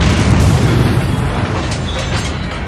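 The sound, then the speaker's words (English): A palace exploding in an audio drama, heard as a dense, roaring rumble that stays loud through the whole clip and eases slightly toward the end. “What was that? I think it was your wish coming true. The palace has exploded!”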